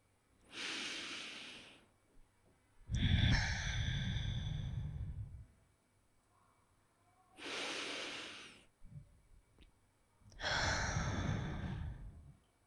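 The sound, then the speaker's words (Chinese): Slow, deep breathing during a guided mindfulness exercise: four long, loud breath sounds, two airy and hissing and two fuller and lower, separated by silent pauses. “请闭上双眼，我们一起来做两组深呼吸。”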